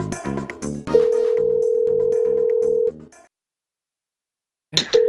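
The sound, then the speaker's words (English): A telephone call being dialed to Canada: a steady pitched line tone holds for about two seconds over a quick rhythmic pulse, cuts off into silence, then briefly returns near the end after a short burst. “And we're calling Canada.”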